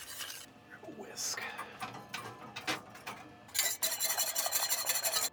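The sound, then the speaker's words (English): A spoon stirs tomato sauce in a pot, giving faint scrapes and soft clinks, then a quicker, louder run of rhythmic scraping toward the end. “So let's plop that sauce. Give it a quick stir.”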